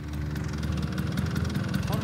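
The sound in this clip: Rattling, steady putter of idling Vespa scooter engines from a club of riders, a dense low mechanical drone with people talking over it.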